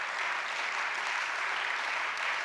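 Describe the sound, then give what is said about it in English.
A church audience clapping their hands during a worship service, a dense, continuous wash of applause that holds steady and even throughout, with no distinct individual claps standing out. “Everybody clap your hands and shout yes to the Lord.”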